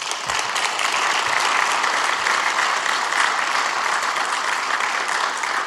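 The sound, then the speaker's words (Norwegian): An audience at a church gathering breaks into applause, with many hands clapping in a dense, even wash that stays loud and steady for the whole stretch. “Ska vi ge en applaus?”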